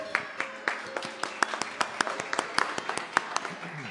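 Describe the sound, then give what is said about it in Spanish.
An audience claps in a steady, quick rhythm at a live music event, with many sharp, even claps of moderate loudness running throughout. “Un aplauso fuerte.”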